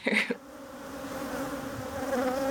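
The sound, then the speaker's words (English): Honeybees recorded in a sculpture park in Belize make a steady droning buzz with a brief louder rush at the start, then a sustained even hum that holds its level throughout. “You will hear the sound of bees. These are bees that were recorded in Belize, actually in a sculpture park in Belize that's called Pustinia.”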